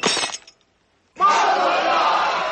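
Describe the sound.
A glass laid on the floor is stepped on and broken at a wedding, giving a short bright crunch, then a brief silence before a crowd bursts into loud, sustained shouting and cheering.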